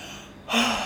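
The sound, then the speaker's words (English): One big, deep breath is drawn in sharply about halfway through after a quiet stretch. The airy inhale swells quickly and holds briefly before tapering, with no talk around it. “Big breath.”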